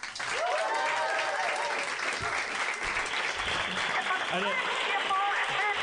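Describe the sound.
An audience welcomes a guest on a show with dense, sustained applause, and whoops and cheering shouts rise over the clapping throughout.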